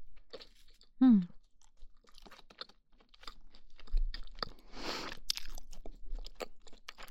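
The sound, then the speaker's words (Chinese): Crunchy toast crusts are chewed with a few crisp crunches and softer mouth sounds between them, quiet overall, with a denser burst of crunching later on. “不喜欢吃面包片的那个皮的边边，但这个吐司边边好好吃。”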